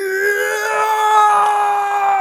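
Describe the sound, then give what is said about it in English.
A voice imitates a long, overused stock movie scream, holding one sustained, strained cry without a break and sliding slightly lower right at the end. “this movie uses one of my favorite oversampled screams. It's the really long one where it's like,”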